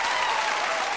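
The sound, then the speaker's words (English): Studio audience applause from The Oprah Winfrey Show: a dense, steady wash of many hands clapping that holds at an even, loud level for the whole second. “And these sounds you're hearing are the actual Oprah audience recordings.”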